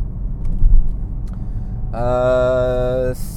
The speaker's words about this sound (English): So today, I'm driving a Porsche 911,